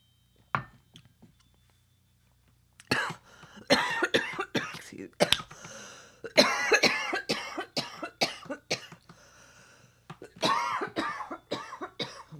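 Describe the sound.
Repeated choking coughs, many harsh bursts in uneven clusters, come after a quiet start and carry on loudly with short gaps until the end.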